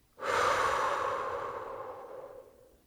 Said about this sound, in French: Inspire par le nez en gonflant ton ventre. Imagine l'air dans ton corps et souffle par la bouche.